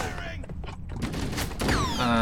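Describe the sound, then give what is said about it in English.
Battle rifle gunfire in a shooter video game: a dense, rapid fusillade of shots blurring into continuous loud crackle with other game sounds, lasting about two seconds. “Oh, that's the sound. The sound of a battle rifle.”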